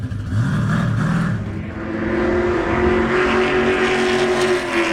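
A race car accelerates on a track at full throttle, a sustained, loud engine roar that grows louder after about two seconds and holds steady to the end, with no talk.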